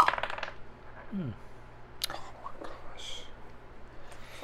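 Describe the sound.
Dice clatter across a table in a tabletop role-playing game, a short, busy rattle of quick clicks at the start, followed by faint voices and soft movement.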